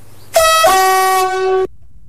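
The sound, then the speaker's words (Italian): A car horn sounds one long, loud, steady blast of a little over a second, then cuts off abruptly into near silence, with no voices. “Fortunatamente il mio stato di equilibrio precario non mi impedisce di sterzare evitando il possibile impatto, né di suonare clacson, gesto automatico in queste situazioni.”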